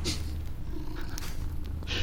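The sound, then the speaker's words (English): A low, steady rumbling purr like a cat's, from a soft fantasy creature in a tabletop role-playing game, continuing unbroken for about two seconds with no talk over it. “purrs like a cat”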